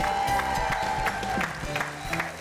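A studio audience applauds and cheers to welcome the hosts of a television show, a steady, moderately loud patter of clapping that runs through the whole moment.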